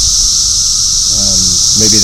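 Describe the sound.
Male 17-year periodical cicadas call to females in a loud, steady, high-pitched buzzing drone that fills the whole clip. A man's voice briefly speaks over it toward the end.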